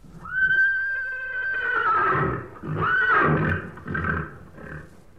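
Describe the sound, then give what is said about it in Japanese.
A horse whinnies in a long, loud, high neigh, followed by a shorter second neigh and a few fainter snorting calls that trail off. “あ、この声はなんだ？聞いたことのない変な声だにゃ。 馬なのだ。 当たり。”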